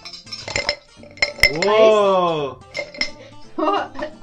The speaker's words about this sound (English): Whoa! Ice. So I brought ice back from work because I don't have an ice.